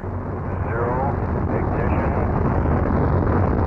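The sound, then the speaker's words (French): A deep, steady rumbling roar of a spaceship engine, likened to gastric troubles, swells in during the first second and then holds loud and constant. “Un bruit étonnant que d'autres attribueraient à des ennuis gastriques, et dont je sais que moi, c'est le bruit du moteur, propulse le vaisseau vers le ciel.”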